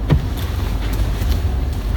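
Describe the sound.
Steady low road rumble of a car driving home near Ashland, Wisconsin: a continuous engine and tire drone with slight swells and no talk.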